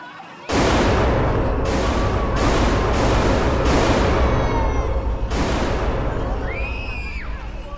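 Gunfire from a gun being fired erupts as a loud, sustained barrage of shots with several sharp onsets, staying dense and harsh before tailing off slightly near the end.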